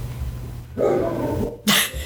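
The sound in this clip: A dog barks in the background with a few short, sharp bursts over a low, steady hum.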